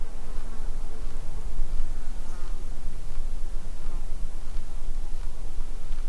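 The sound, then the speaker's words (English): Insects buzz as they fly past on a quiet, windless mountain summit, making a continuous droning hum that stays steady throughout. “Things like insects will oblige and fly by your mics.”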